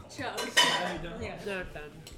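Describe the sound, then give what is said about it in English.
Dishes and cutlery clink as a bowl is collected after a meal, with a few light ceramic knocks and metallic rattles at moderate volume. “If you're done, I'll take your bowl.”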